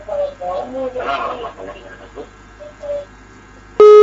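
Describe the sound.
A telephone call-in line disconnecting: muffled talk over the phone line comes first, then a loud, steady electronic beep tone cuts in at the very end.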